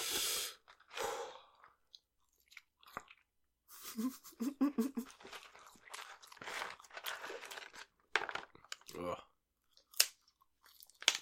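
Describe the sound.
Crunchy chewing and biting of food comes in short, irregular bursts during a tasting of something with hot sauce. Breaths and stretches of people talking fall between the bites.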